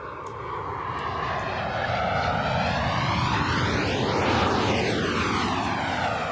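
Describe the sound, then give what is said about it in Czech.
An airplane passes with a loud, steady engine roar whose tones sweep downward as it goes by, with the sound growing slightly fuller toward the middle and end. “Samozřejmě to bylo letadlo.”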